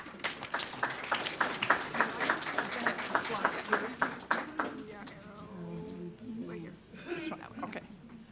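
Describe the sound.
Applause greets a speaker at a lecture on women in science, a soft stretch of clapping with distinct individual claps that lasts several seconds, then fades as a voice starts talking.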